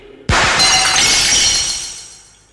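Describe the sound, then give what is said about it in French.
Mirror glass shattering from a gunshot: a sudden loud, bright crash bursts in, then a long shimmering tail of falling shards slowly fades out. “Vous n'avez réussi qu'à casser la glace.”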